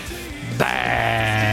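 A sheep gives one loud, nasal bleat that starts abruptly and holds steady to the end, alone without talk.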